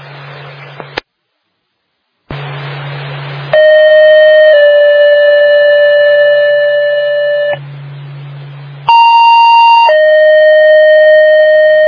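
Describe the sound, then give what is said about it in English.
Electronic siren tones from a fire dispatch radio during a siren check: loud, steady, buzzy tones that step between pitches, broken once by a short silence near the start, with no voices. “Radio siren, check, okay.”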